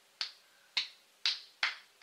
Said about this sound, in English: So when you do that, you want to clap, then you want to reverse it